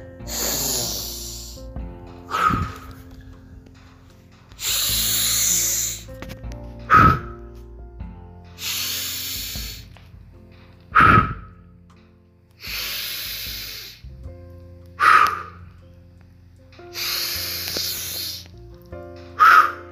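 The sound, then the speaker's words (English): Deep rhythmic breathing during a guided breathing exercise. Loud, forceful breaths repeat in a steady cycle roughly every two seconds, and some have a slight whistling, nasal edge. No one speaks. “So here we go, 30 breaths.”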